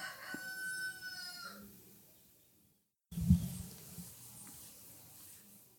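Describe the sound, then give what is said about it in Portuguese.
A rooster crows at midday with one faint, drawn-out call that trails away. After a pause, a low knock follows. “Ah, uma galinha cantando.”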